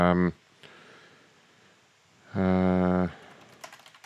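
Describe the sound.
Keyboard typing on a computer while notes are taken in a call center: light clicking taps, with a few sharper clicks near the end, broken by two loud buzzing tonal bursts.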